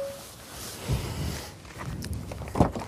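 Footsteps walk to the back of an electric SUV: a few soft thuds and scuffs at an uneven pace over low background noise, with no talk.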